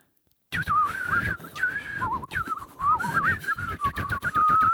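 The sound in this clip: People whistle into a microphone: a wavering, high, reedy tune that slides up and down around one pitch, with breathy blowing noise and short gaps between phrases.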